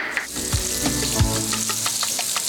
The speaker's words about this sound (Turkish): Tereyağımız yumuşamaya başlayınca soğan atacağız.